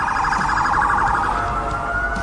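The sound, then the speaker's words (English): Police siren wailing loud and continuous, first warbling in a rapid yelping pattern, then settling into a smoother, slowly rising tone. “Could we get some sirens at the top here”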